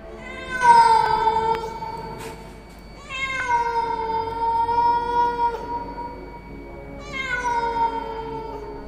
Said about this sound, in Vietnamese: cùng với tiếng con mèo đen vẫn kêu đâu đó